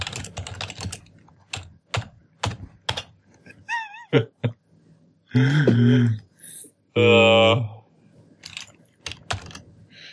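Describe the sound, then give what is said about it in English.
Typing on a computer keyboard: quick bursts of key clicks at the start and again near the end, with louder, longer tonal sounds breaking in through the middle. “You had to type it out.”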